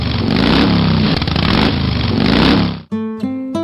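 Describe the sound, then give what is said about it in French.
Deep exhaust rumble of a Yamaha motorcycle, a low, throbbing engine note held for about three seconds before cutting off abruptly, followed by a few brief tonal sounds. “Celle de mon père, c'est une Yamaha, bleue et blanche, avec un beau bruit de peau d'échappement. Très grave, un peu comme ça.”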